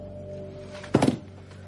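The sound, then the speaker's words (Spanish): A rifle is set down on a table with a single short, dull thunk that stands out loudly over a low steady hum. “El rifle. Deja el rifle sobre la mesa.”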